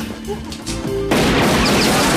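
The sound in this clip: Gunfire erupts as two men flee, a sudden loud, sustained blast of crashing noise that cuts in after a short stretch of voices and other sounds.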